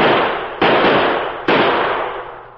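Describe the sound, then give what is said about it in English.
Gunshots from two guns fired at a tin can tossed into the air: three loud, sharp bangs, each followed by a long, slowly fading rumble of noise, spaced unevenly about a second apart, with no voices. “I'll use my own two guns. You use yours. Matt! Yeah? Throw one of them tin cans up in the air. I'll keep it there. Watch this, stranger.”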